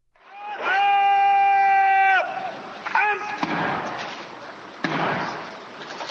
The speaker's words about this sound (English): A military gun salute and the pomp and ceremony of state were all in evidence yesterday for the inauguration of President Robert Mugabe.